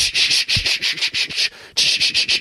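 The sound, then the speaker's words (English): Sandpaper rubbing back and forth across a surface, such as wood, in many quick, even strokes of harsh, scratchy hiss. A brief pause comes midway before the steady stroking resumes. “Sandpaper. We use this to sand things. So sandpaper is paper with a very rough surface on it.”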